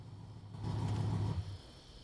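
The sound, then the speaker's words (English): A car pulls up outside a house at night, its faint, low engine rumble swelling for about a second before settling back to a quiet idle. “Mike's car pulls up outside the Brody house with Jessica in the passenger seat.”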